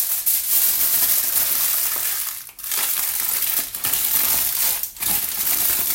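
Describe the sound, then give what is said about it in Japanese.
Aluminium foil is crumpled by hand in a bathroom. The dense, loud crackling and crinkling runs almost without a break, with a couple of short dips in intensity. “アルミホイルはちょっとくしゃくしゃにしてしまおうと思います。”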